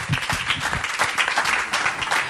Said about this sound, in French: On peut applaudir Vincent Azé, s'il vous plaît.